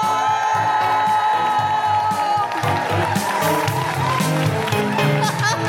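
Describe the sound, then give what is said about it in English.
Audience at a live comedy show in Newcastle cheering, whooping and applauding a comedian onto the stage, a dense, loud, continuous wash of clapping and shouts that barely dips throughout. “Put your hands together and make incredible woohooing noises for the wonderful Kemah Bob!”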